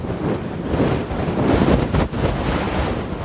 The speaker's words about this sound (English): The wind is coming right out of the north-northwest. It's blowing my eyeballs out of my head.